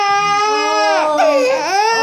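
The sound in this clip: An infant cries loudly and without pause, a fussy baby thought to have a fever, its high, strained wail wavering and bending in pitch over the whole stretch, with no other sound beside it.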